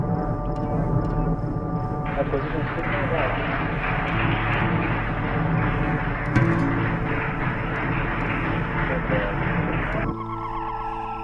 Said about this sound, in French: Vous entendiez la séquence de décollage de la fusée Crew Dragon de SpaceX.